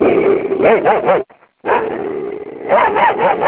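A person imitates dog barking for a big dog and a puppy, making many rapid, voiced yips and barks in two bursts split by a short pause.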